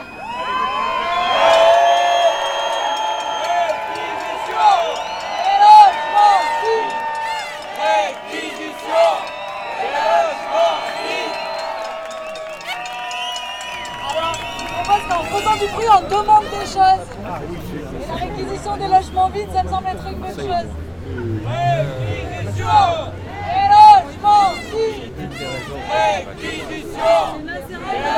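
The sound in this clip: A protest crowd shouts and cheers, with loud raised voices and chant-like cries. Later the din gives way to a lower, rolling babble of many people talking and calling out.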